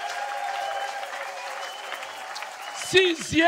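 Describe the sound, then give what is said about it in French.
Church audience applauding and acclaiming Jesus, a steady wash of clapping that runs evenly, then a loud voice calls out twice over it near the end. “est-ce que tu peux acclamer Jésus? Alléluia! Alléluia!”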